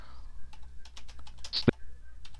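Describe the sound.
Keys clack on a computer keyboard as an artist name is typed, with a few quick, light keystrokes and one sharper tap near the end.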